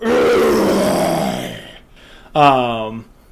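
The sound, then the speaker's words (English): A voice imitates a booming, growling roar: a long, rough roar that fades out, then a shorter, deeper roar with a strong harmonic tone. “in the distance, you hear this booming roar”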